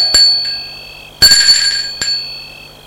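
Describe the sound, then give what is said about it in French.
A bell at a front gate rings a few times: bright, metallic tones with a ringing shimmer, the middle ring the loudest and longest, sounding alone against a quiet background. “Un des hommes sonne au portail.”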